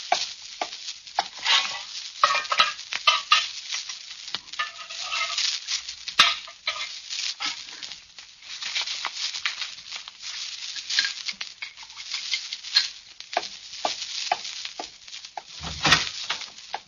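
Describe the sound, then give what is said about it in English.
Broth seasoned with rosemary, thyme and basil is stirred and ladled out, giving a steady run of soft scrapes, clinks and liquid splashes throughout, with no talking. “I'll ladle out the broth.”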